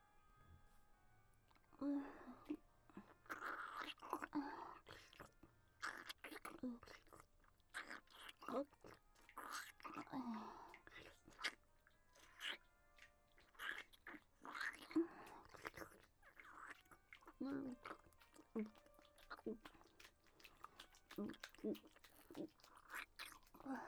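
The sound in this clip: Soft chewing and crunching of food in a mother feeding a child mouth to mouth, with many irregular quiet bites and wet mouth sounds alongside a hushed voice.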